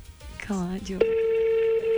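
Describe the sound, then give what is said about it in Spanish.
An unanswered telephone call gives a single long, steady ringback tone of even pitch, held for about a second after a brief voice at the start. “No le van a contestar, parece. Su llamada está siendo transmitida.”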